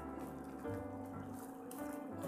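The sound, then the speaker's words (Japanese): Hot water pours into a Cup Noodle-sized instant noodle cup as a steady, continuous splashing gush that holds an even loudness throughout. “お湯が入ってます。 線が 見えますよ、この辺に。はいはいはいはいはい、 お、意外とお湯入りますね。”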